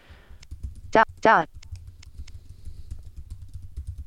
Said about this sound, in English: So I'm going to type in my Wi-Fi password.